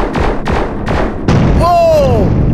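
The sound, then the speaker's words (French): Explosion sounds from a video game as an asteroid is blown apart by a flash shot: four heavy blasts in quick succession, then a ringing electronic tone that bends in pitch and fades out. “Oh! Ah, hey, ça a explosé.”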